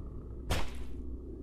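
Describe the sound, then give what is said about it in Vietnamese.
A single sharp whooshing blow as a stone is brought down in a story sound effect, with a sudden swishing onset that fades within about half a second. “Dưới ánh trăng lạnh lẽo, Hoàng Ký run run dơ tảng đá lên rồi giáng xuống.”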